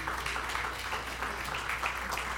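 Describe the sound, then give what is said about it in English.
Faint audience applause during a talk on history, a soft, continuous wash of clapping without clearly separate claps. “Okay. So there's some history that, yeah, you can applaud.”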